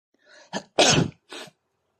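A person sneezes: a soft breathy intake and a short burst build into one loud, explosive, noisy blast, followed by a smaller trailing exhale, all in silence.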